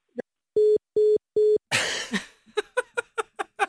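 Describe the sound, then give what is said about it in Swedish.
A telephone line gives three even, mid-pitched beeps after the receiver is hung up. A noisy clatter follows, then a quick run of short rhythmic bursts. “Okej, jag har annat att göra för mitt jobb, så jag lägger på luren nu.”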